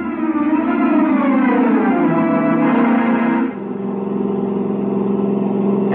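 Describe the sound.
A British sports car engine, a 362 model, runs loud and revving. Its harmonic drone wavers, then drops to a lower, steadier tone after a brief dip midway.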